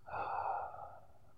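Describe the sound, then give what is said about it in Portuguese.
A single slow exhale through the mouth during a guided meditation: a soft, breathy rush of air that swells quickly, holds, then tapers gently away, with no talking. “Inspira pelo nariz. Solta o ar pela boca.”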